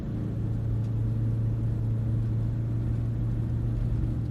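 A car drives fast along a road, its engine giving a steady low drone and rumble that holds even and continuous throughout, with no voices.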